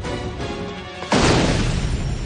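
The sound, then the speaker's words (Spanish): An explosion blows open a wall of a psychiatric building. A sudden loud blast cuts through steady noisy ambience and becomes a sustained, roaring rumble. “los hombres de Ducard detonan una de las paredes del edificio”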